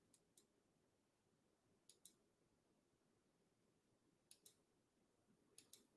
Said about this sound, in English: Oh gosh, I was supposed to hit the next button.